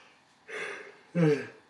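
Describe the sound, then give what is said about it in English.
A person yawning: a breathy inhalation swells and fades, then a louder second swell carries a low, moaning voiced tone before trailing off. “excuse me again, I always yawn in these, seriously, every single episode”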